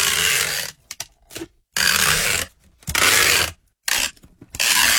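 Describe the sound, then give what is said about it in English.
Packing tape rips off in several harsh, scratchy tearing bursts, some long and some brief, separated by short silences. The sound is loud and rasping. “That sounds like sticky tape. Packing tape. Yeah. That's it. Me having my legs waxed with it.”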